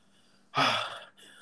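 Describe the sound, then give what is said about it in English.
A single deep breath, a loud, breathy inhale of about half a second that fades into a softer, quieter breath just after. “did you hear that deep breath?”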